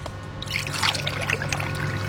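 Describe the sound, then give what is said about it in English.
Very brown water from the Thames poured through a funnel and filter into a flask in a laboratory, heard as a soft, steady trickle that runs continuously and stays fairly faint. “We're literally just going to get our flask and our funnel and our filter and just pour the water through.”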